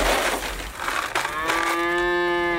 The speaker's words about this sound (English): Chris runs a farm featuring an assortment of goats, chickens, and cows